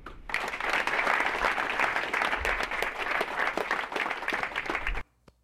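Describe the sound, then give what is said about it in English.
Tepid golf-clap applause from a baseball crowd greeting the American League all-star starting shortstop, an even patter of many hands at moderate volume that holds for about five seconds and then stops abruptly. “A tepid ass fucking response. Man just became the all-star starter for shortstops in the American League, and they gave him a fucking golf clap.”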